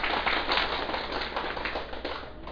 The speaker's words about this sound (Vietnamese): Xin quý vị vỗ cho một tràng hỗ tay.